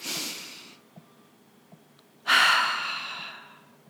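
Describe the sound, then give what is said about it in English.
Deep breathing, with two long, airy breaths separated by a pause; the second is louder and longer and fades out slowly. No talk is heard. “So let's take a big deep breath together.”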